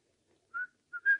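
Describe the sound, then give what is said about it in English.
A person whistles a short tune of three clear, high notes. The last note is the longest and loudest, with nothing else heard. “I notice you whistle that tune when things are going well.”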